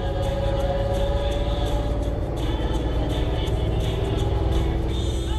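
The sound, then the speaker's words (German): Steady engine drone of a tour bus driving toward the old town of Edinburgh during the August Fringe Festival: a continuous low hum with even loudness throughout, no voices. “Liebe Gäste, unser Bus nimmt nun Kurs auf die Altstadt.”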